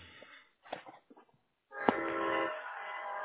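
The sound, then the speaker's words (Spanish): A train passes near a parked car, heard through a phone call. A few faint, broken sounds give way to a steady, loud rumble that starts sharply and holds to the end. “Se oye como un tren ahí atrás. Oh, sí, es que va pasando un tren donde estoy yo estacionado ahorita.”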